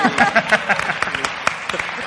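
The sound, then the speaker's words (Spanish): An audience applauds, a dense, steady patter of many hands clapping at an even loudness, with voices mixed in underneath. “¡Un aplauso!”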